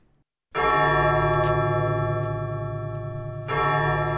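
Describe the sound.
A single bell stroke rings out after a moment of silence, its rich humming tone sustaining loudly, then a second stroke renews the ringing near the end.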